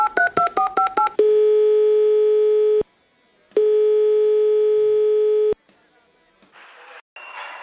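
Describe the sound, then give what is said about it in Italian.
Telephone keypad tones beep in a quick run of about seven short presses as a number is dialed. Two long, steady ringing tones follow, each lasting around two seconds, then a stretch of faint, low noise. “Dai, faccio il suo numero e vediamo se ci risponde.”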